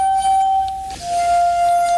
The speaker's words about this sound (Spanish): Luego hay instrumentos que realmente emiten sonidos extraños e inquietantes. Por ejemplo, las copas de cristal.